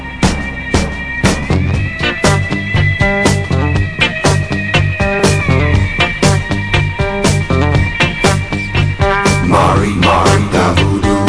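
1970s rock music, loud and continuous, with a steady driving drum beat under layered instruments and no singing.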